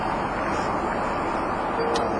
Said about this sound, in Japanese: 実はあの某3人でね、車でねドライブ中なんだ今。